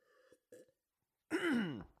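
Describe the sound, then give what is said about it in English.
A phlegmy throat clearing: a loud, rasping burst of about half a second whose pitch slides downward, after a couple of faint, short vocal sounds. “Oh man, I always get phlegm in my throat.”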